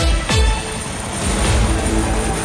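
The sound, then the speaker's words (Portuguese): Helicopter noise introduces the Manchete radio traffic report: a quick downward swoosh near the start, then a loud, steady whirring roar. “Informação chegando e agora vamos direto para o helicóptero com... Helicóptero Manchete no ar.”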